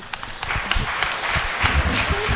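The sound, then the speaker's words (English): Audience applause for a singer coming forward during Christmas carols, many hands clapping in a steady, somewhat muffled patter. “Can we give her a round of applause as she”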